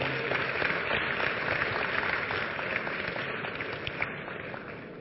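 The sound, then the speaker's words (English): Applause rises from a church audience in a thick, even rush of many hands clapping, holding steady before easing slightly toward the end. “Clap for Jesus. Take your seat. That will be the end of part one. Clap for Jesus.”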